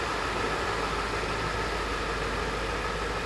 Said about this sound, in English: there goes the truck, so we'll wait for the podcast so people can hear better.